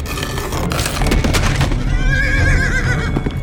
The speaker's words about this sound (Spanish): el caballo lanzó un alarido que era demasiado frenético para un relincho